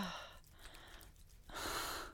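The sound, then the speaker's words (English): Heavy breathing of someone catching their breath after kissing: a couple of strong, airy breaths separated by a quieter pause. “No, I don't want you to stop. I'm just trying to catch my breath. When you just keep kissing me”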